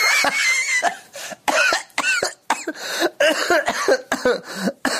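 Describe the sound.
A coughing fit: many harsh, rasping coughs come in rapid, uneven bursts, loud and voiced, with short breaths between clusters over several seconds.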